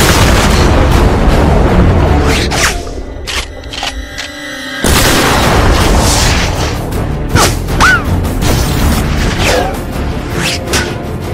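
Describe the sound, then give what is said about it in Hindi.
A cannon fires explosive shells: loud booms and heavy rumble at the start, a quieter lull, then a sudden loud blast with continuing rumble afterward. “Target range में है। धमाका खेज गोले load हो रहे हैं। Fire कर।”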